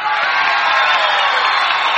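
An audience at the Grand Ole Opry cheers and welcomes a returning star guest to the stage with a dense, steady roar of applause, whoops and crowd noise.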